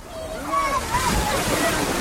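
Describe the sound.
Splashing water as someone slides down a water slide into a pool: a steady, loud wash of churning water with faint voices underneath.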